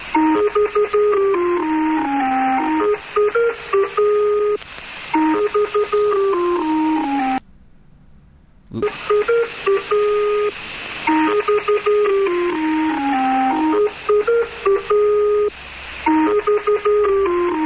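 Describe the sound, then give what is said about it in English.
Numbers station interval signal on shortwave radio: a looping folk-tune melody of pure electronic tones with organ-like harmonics, stepping up and down at a steady pace. It plays loud and steady, breaks off for about a second near the middle, then resumes. “the station takes its name from the interval signal, the Lincolnshire Poacher, which is played using a callaloop sound”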